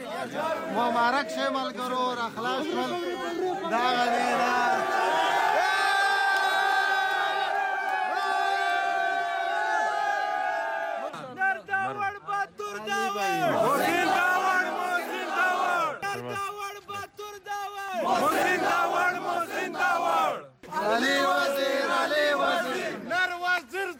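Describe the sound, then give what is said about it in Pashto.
Hundreds of Pashtun Tahafuz Movement supporters chant emotional welcome slogans outside Bacha Khan airport in Peshawar, loud sustained massed voices in long unison phrases broken by short gaps and bursts of shouting. “د پښتون تحفظ موومنټ په سلګونو پلویانو د دوی هرکلی په دې جذباتي غږونو سره وکړلو.”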